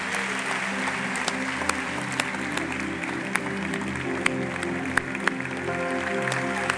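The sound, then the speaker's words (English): A church audience gives light, scattered applause, with a few sharp claps standing out above a steady low background hum. “Let's give them hands and go out.”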